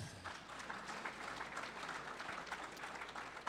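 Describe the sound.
Faint audience applause at a talk about politics and voting, a steady patter of many hands clapping throughout with no speech over it.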